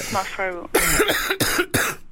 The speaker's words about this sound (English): Can you just do a bit of a cough for us now? Right, I'm going to do a bit of my one now.